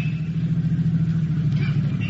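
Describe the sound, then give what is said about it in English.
Steady low engine rumble from a car pulling in to park at a curb. The drone holds even and continuous for about two seconds, with no talk over it. “Park to the curb. That's the car, all right. There's a parking space past it. Pull in.”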